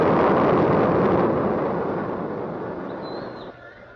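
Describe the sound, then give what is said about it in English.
A rocket lifts off at launch with a dense, broad roaring rumble. It starts loud and steadily fades over a few seconds. “Lift off! It's going! It's good! A beautiful shot! A beautiful shot!”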